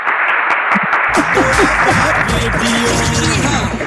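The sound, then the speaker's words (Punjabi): Applause for a guest on a Punjabi radio program: a few sharp separate claps at first, then dense continuous clapping with a voice talking over it. “Saini ਸਾਹਿਬ ਲਈ ਆਉਣ ਗਿਆ ਦਿਲਾਂ ਚੋਂ ਨਿਕਲੀ ਹੋਈਆਂ ਤਾੜੀਆਂ”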